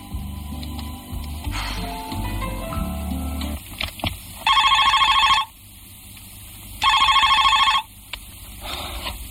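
Telephone ringing in two loud, bright bell bursts of about a second each, evenly spaced, with a fainter third burst beginning at the end. Mixed low sounds come before the rings.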